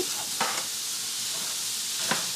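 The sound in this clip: A large batch of onions sizzles while frying in a pan, a loud, steady hiss broken by a couple of brief stirring scrapes.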